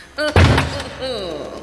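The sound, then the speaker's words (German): A door slams shut with one heavy, sharp bang and a brief rumbling thud, while voices shout around it. “Nein, nicht die Tür schließen! Aufmachen! Aufmachen!”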